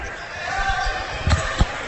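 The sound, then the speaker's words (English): A basketball dribbled during a game between Gladwin and Ogemaw Heights: two sharp thumps of the ball on the court, close together near the end, under a commentator's voice and steady hall noise. “He dribbles up top.”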